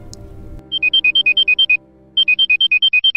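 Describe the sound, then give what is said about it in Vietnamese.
An alarm clock rings loudly with rapid electronic beeps that alternate between high pitches. It sounds in two bursts of about ten beeps each, separated by a short pause. “Tiếng chuông báo thức vang lên inh ỏi.”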